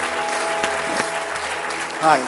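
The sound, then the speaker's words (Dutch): Audience applauding at a church meeting: continuous clapping lasting a couple of seconds, with a voice speaking over it. “Give these guys a hand. Geef deze mensen een applaus.”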